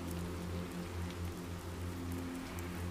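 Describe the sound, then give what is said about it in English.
Steady rain falls at night, a continuous soft hiss with no single drops standing out. It stays even in level throughout with no voices. “As darkness takes hold and the rain continues its soporific beat”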